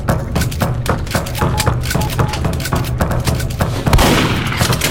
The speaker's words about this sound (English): So let's choose my shotgun, I guess.